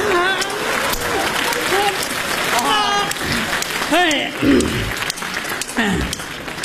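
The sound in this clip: Audience applause at a show makes a continuous, dense patter of clapping at moderate loudness, with voices talking and calling out over it.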